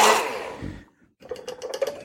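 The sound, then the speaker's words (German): A blender purees an onion, ginger and garlic mixture for garam masala: a dense whirring burst fades out, and after a brief pause comes a run of short, choppy pulses. “So, ich mixe es jetzt einmal, dann ist es gleich schon mal fertig.”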